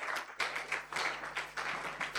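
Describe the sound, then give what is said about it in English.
An audience claps for their church in a faint, rhythmic pattern, a group of hands striking together in regular bursts about a quarter second apart, over a low steady hum. “Oh, you clap for your church.”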